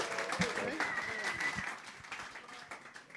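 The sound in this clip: Audience applause at a church service, continuous clapping with a voice speaking over it.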